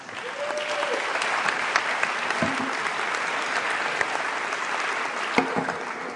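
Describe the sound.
Audience applause greets a speaker being welcomed to the stage. Continuous, even clapping with a crowd texture runs the whole time, dotted with a few sharper individual claps.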